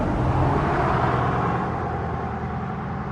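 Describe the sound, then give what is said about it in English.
A loud truck drives along a highway, giving a dense, steady roar of engine and road noise that holds evenly from start to finish without breaks. “a loud truck driving along the highway.”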